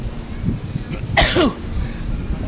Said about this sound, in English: I'm going to sneeze real quick.